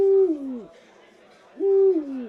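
Owl hooting in two separate calls, each a full, resonant hoot that slides down in pitch, with a quiet pause between them and no talking.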